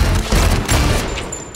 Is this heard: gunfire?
yes